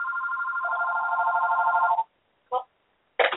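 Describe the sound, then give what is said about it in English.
A phone rings with an incoming call: a steady electronic warbling ring tone for about two seconds, then two brief chirps, clear and alone. “Oh, sorry about that. Let's see if I can shut that phone off.”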